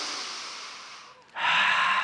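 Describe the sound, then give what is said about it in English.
A church audience takes a deep breath together, a broad airy rush that fades into a brief lull, then swells into a second, louder breathy rush. “Adults, take a deep breath.”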